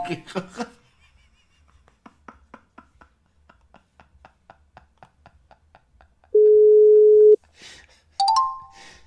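Telephone line tones during a redial of a call: a long run of soft, evenly spaced clicks, then a loud, steady mid-pitched tone lasting about a second, followed shortly by a higher tone.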